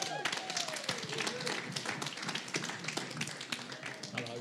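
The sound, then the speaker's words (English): Audience applause greeting three performers as they are introduced at a card-themed show: a dense, steady patter of claps with voices mixed in throughout. “Here they come. It's Nick, it's Sam, and it's Matt. Give them a hand.”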